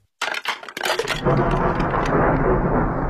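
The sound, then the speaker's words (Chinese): Thunder on a windy night: a few sharp, crackling bursts break out abruptly and settle into a loud, sustained rolling rumble that continues to the end. “一天深夜，刮起了大风，雷声不断。”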